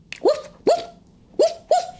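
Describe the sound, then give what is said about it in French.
A dog barks four times in short, sharp bursts, the first two close together and the last two after a brief pause. “C'était le chien du prince.”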